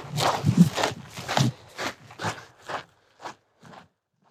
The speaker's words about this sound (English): Right now, I'm walking just among pure granite. All around me, kind of these sheer mountain faces.